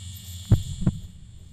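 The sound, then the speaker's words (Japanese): Heartbeat: two deep, muffled low thumps in quick succession over a faint steady hum, then quiet. “どんどんどんどんあなたの心臓の音が速くなる。”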